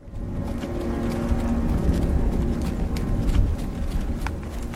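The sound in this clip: Horses' hooves clopping as a young couple rides off together across the Scottish moors. The beat is steady and continuous over a low rumbling bed of sound.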